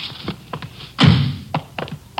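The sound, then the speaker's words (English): A door being opened: a cluster of dull thunks and light taps, with one heavier thud in the middle standing out against the quieter knocks around it. “In just a minute, I'll get the door here.”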